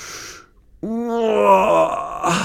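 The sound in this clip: A drawn-out yawn from a dinosaur waking up and stretching: a loud, voiced, groaning tone that starts abruptly and holds for more than a second.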